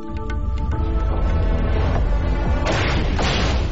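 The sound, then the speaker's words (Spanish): Artillery fire during the battle for Berlin rolls as a heavy, continuous low rumble. Dull booms are layered on top and grow louder and broader toward the end. “Es la artillería.”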